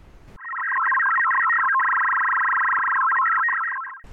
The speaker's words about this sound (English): That's the sound of our new tracking payload, named Horus Binary, which uses a high-performance modem designed specifically for high-altitude balloon flights by David Rowe, VK5DGR, and myself.